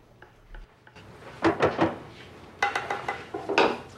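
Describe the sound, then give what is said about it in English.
Dishes clink and knock as a dish is set down on a table after an oven adjustment during Thanksgiving meal preparation. Quiet clicks come first, then several louder clusters of clattering contacts. “He adjusts something in the oven and puts a dish on the table.”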